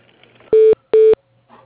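Two steady electronic telephone tones sound as a call is transferred to voicemail. Each lasts about a quarter second with a short gap between them, and they are loud against faint background noise.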